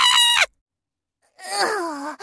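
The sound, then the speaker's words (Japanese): A scream: a short high-pitched cry, then after a silent pause a longer, wavering wail that slides down in pitch. “いい、いい声だ。これこれ、この悲鳴がたまんねえ。”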